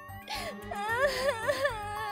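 A frightened child cries and wails during a house fire, with high, wavering sobs that swell into several rising and falling wails over a low, pulsing background.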